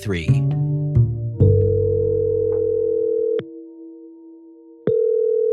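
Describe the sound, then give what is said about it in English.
A telephone dial tone as a phone call is placed, a steady low hum that holds for several seconds after a brief voice at the start, shifting slightly in tone twice with soft clicks. “And so, I phone up Kelly, Mickey Rooney's daughter.”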